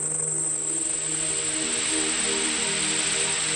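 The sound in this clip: Heavy rain pours down in a dense, even hiss that holds steady throughout, with faint sustained low tones underneath.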